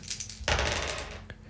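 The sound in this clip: A hundred-sided die rolls across a surface: a rattling clatter of under a second, then one brief click as it comes to rest.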